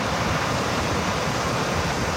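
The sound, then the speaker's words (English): Roaring, rushing water from Cougar Creek in Canmore, raging and flooded, forms a steady, dense wash of noise with no breaks or voices. “Our little creek in Cougar Creek is raging again.”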